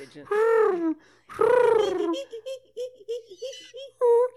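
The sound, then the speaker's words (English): A human voice imitates a pigeon cooing: two long, drawn-out vocal calls, then a run of short, low, warbling coos in an uneven rhythm. “Can you do a cricket? No, that's a pigeon. That's definitely”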